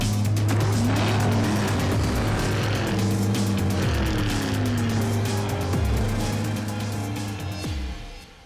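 Roaring stunt cars racing at speed through doorways, a dense continuous engine drone with several swooping pitch changes as vehicles pass, loud throughout with no talk.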